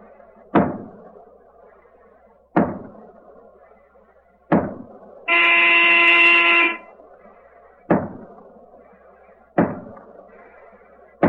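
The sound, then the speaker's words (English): A submarine's diving alarm blares once, a steady buzzing horn-like tone of about a second and a half, set among six heavy, evenly spaced thuds before and after it. “All hands down the hatch. Down the diving alarm.”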